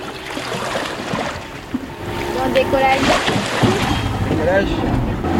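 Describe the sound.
A boat sets off on the water in French Guiana, its engine droning under buffeting wind noise. The sound grows louder partway through, and muffled voices are heard in the background.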